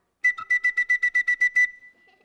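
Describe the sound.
People whistling together: a quick, evenly paced run of many short, bright notes at nearly the same high pitch, ending on one held note that fades away.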